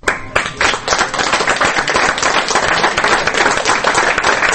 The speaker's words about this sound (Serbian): Ovim aplauzom publika u Medija centru u Beogradu otpratila je posljednje kadrove jednočasovnog dokumentarca